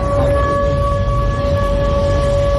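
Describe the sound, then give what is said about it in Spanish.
Air raid sirens wail at night in Krasnodar during a drone attack, a loud, unbroken tone holding one steady pitch throughout, layered over a constant low rumble. “Este es el sonido de las sirenas antiaéreas esta noche en Krasnodar, donde varios drones ucranianos han sobrevolado la ciudad”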